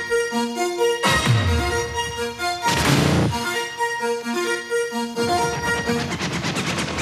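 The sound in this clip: Theme jingle of the TV exercise show Cvičme v rytme: loud, upbeat instrumental music with steady sustained tones and a couple of bursts of noisy, crashing percussion, with no voices.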